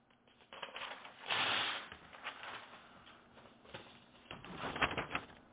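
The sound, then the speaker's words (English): Scratchy strokes of something being written down, faint and intermittent, with short bursts and pauses in an irregular rhythm. “So let's write that down.”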